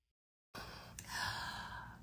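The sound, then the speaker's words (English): A sharp intake of breath, as if before singing, breaks the silence as a sudden breathy rush that lingers quietly for over a second. “You took a breath like you were going to sing with me.”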